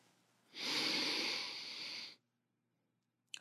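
A deep inhale drawn through the nose during a grounding breathing exercise: a steady, airy rush lasting about a second and a half, then silence broken by a brief click at the end.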